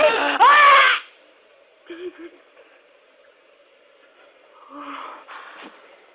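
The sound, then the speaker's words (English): A woman being choked in a suspense radio drama, performed by an actor: a loud strangled cry at the start, then faint, broken gasps and wheezes. “You got my throat. You're choking me.”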